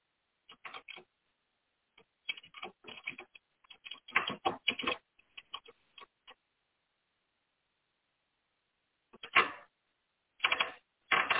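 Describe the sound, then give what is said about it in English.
Quick bursts of keystrokes on a computer keyboard as a Google search is typed, clattering in uneven runs separated by pauses, including one long gap before the typing resumes. “I'm just doing a Google search. I typed in, when was the book of Colossians written?”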